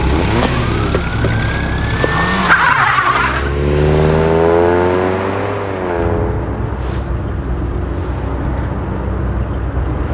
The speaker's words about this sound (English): The vagrant turns and gets in as well. They race away before the police arrive.